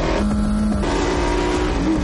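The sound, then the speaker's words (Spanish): Racing cars, including a Ferrari, run side by side at full speed, with a loud, continuous engine roar that holds steady throughout. “Los dos corren a la par. Su potencia es muy similar.”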